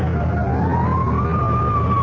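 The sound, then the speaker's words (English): A fire engine siren wails in one continuous tone that climbs slowly in pitch and holds steady and loud over a low, rumbling engine noise. “Fire engine?”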